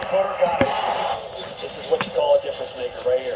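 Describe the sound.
A basketball bounces with a couple of sharp thuds on the court during Chris Paul game highlights, under a voice talking over the play.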